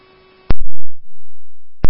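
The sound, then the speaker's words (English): Fire department dispatch alert tones: a steady, low, held tone lasting about a second, set between sharp loud clicks at the start and end. “Forest Lake Fire, tone received. Copy, 4-6, fire tones received at 12:34.”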